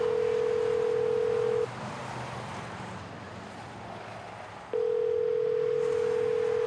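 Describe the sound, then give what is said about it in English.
A steady payphone dial tone, loud and even, breaks off after about a second and a half. Soft hissing noise fills the gap before the same tone returns and holds to the end. “From the payphone in front of Gazzarri's on the strip, Mutt called Buster Lee.”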